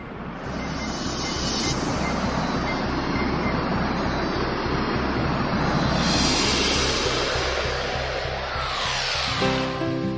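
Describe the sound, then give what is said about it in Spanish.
Rumble of a metro train on Saint Petersburg's yellow line, riding between Sadovaya and Ploshchad Alexandra Nevskogo stations. A loud, steady roar of wheels and hiss fills the whole stretch, swelling a few times, with no talking. “Tomamos el metro en la estación Sadovaya de la línea amarilla y tras dos estaciones intermedias bajamos en Ploshchad Alexandra Nevskogo.”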